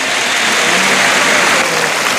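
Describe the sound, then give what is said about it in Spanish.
Bullring crowd in Murcia giving a bullfighter an ovation as he dedicates the sixth bull: dense, loud, steady applause that holds throughout. “y ofrecer la faena de este sexto toro al público de Murcia, que le ovaciona rotundamente.”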